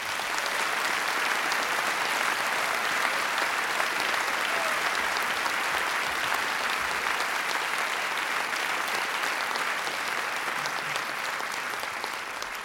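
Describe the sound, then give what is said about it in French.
Audience ovation for jazz pianist Philippe Milanta at a concert of Ellington music: long, dense, even applause from a full crowd, holding steady and easing slightly only at the very end. “Une ovation pour Philippe Milanta.”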